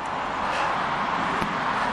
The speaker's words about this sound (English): A lot of car traffic over here on Rockbridge Road. You can probably hear it in the background.